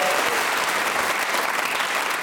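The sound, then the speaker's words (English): A studio audience applauds a contestant's first turn on a comedy panel game, steady and full clapping that fills the whole stretch without a break. “30 seconds for an inaugural performance. Really, I think merits a round of applause.”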